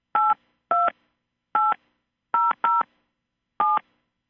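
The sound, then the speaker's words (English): Telephone keypad tones as a PIN is entered on a conference call line: six crisp, dual-pitched beeps with uneven gaps, two of them in quick succession, each a distinct key tone over silence. “Please enter your PIN, followed by pound.”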